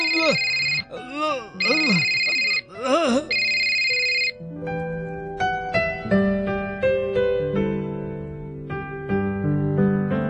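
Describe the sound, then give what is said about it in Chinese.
A telephone rings for an outgoing call: a few bursts of bright, warbling ring tones with swooping pitch fill the first four seconds, then give way to plucked melodic music. “哎呀，打个电话俾阿娟先啊！”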